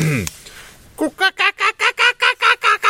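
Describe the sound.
A human voice imitates a kookaburra call with a fast, even run of many loud, repeated hooting syllables that pulse in a steady rhythm.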